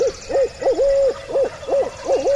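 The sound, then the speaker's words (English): Barred owl 'who cooks for you' hooting, imitated by a man hooting through hands cupped around his mouth. A loud, rhythmic run of mid-pitched, bouncing hoots with one drawn-out note, heard alone without talk. “He cups his hands around his mouth and hoots a perfect "Who cooks for you, cooks for you all" of the barred owl.”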